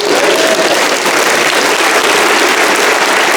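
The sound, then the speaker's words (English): Audience applause fills the whole stretch, loud and dense, a steady wash of many hands clapping with no break or change. “you're clapping because I'm so old”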